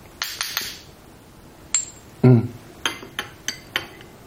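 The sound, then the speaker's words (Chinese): A spoon clinks against a cup as American ginseng powder is stirred into a drink. Bright, sharp taps come in an uneven rhythm, with one duller, heavier knock midway. “搅拌。你看吧，这个粉一冲啊，它结块了，看到没有？”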